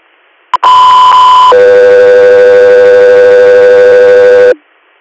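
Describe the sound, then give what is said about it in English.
Loud dispatch alert tones ahead of a medical flight call: a short blip, then a steady higher tone for about a second that drops to a lower steady tone held for roughly three seconds before cutting off. “stand by for tones.”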